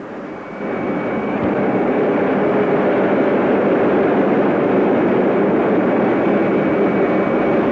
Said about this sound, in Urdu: Bravo point کے قریب ہیں, 1 منٹ کے بعد لینڈ کریں گے.